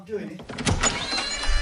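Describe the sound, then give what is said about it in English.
A door is opened to the outside. A voice speaks briefly, then a rumbling, hissy wash of broad noise swells up and carries on to the end. “Shall I just go and open the door to the outside world?”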